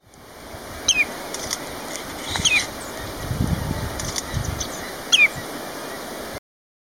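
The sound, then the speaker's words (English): A House Finch gives a few short, sharp chirps spaced apart, with a quiet background and a soft low rumble between the notes. “House Finch.”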